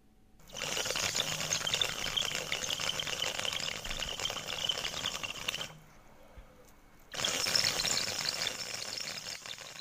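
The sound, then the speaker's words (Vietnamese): Gurgling bubble of a Vietnamese bamboo water pipe being smoked, a rapid rattling burble lasting about five seconds, a short pause, then a second draw. “Ông Nhân cầm cái điếu cày, rít một hơi long sòng sọc, rồi phun ra một làn khói trắng vào không trung.”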